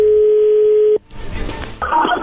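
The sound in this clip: A telephone call being dialed and connecting: a steady dial tone holds for about a second and cuts off abruptly. Rough, hissing line noise follows, and then a brighter crackle as the line opens.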